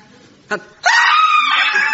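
An acted scream from a woman accosted in the street by a knife-wielding robber: a brief vocal burst, then a loud, high, sustained scream filling the rest of the moment.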